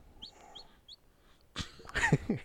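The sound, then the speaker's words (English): A baby chick chirps in a few faint, high, short peeps, followed by louder, busier calls and rustling toward the end. “It's a bird. It's a chick. It's a baby chick. Oh, it's a chick. Baby chick.”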